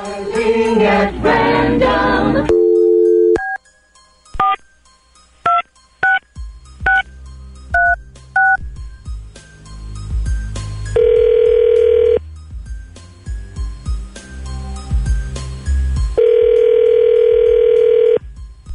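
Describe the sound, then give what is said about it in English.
A phone call is placed: a brief dial tone comes first, then a quick series of touch-tone keypress beeps, followed by two long, steady ringing tones with quiet pauses between them. “So we're going to call... We're still calling Paul, right? Yes. Okay. So let me get Paul's number here real quick.”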